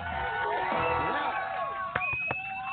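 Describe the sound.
Studio audience cheering and whooping during a wine talk show, a lively blend of shouts and high whoops with overlapping voices, sustained at a steady loudness for nearly three seconds.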